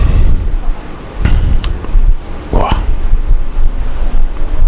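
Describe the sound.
Blower fan pushing air straight into the microphone: a loud, continuous rushing roar that buffets throughout, with gusty surges in level and no clear break.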